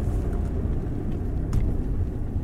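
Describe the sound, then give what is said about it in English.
A car driving up to a park gives a steady, low engine and road rumble, even and continuous throughout, with no voices. “Okay, so I'm driving up to the park now.”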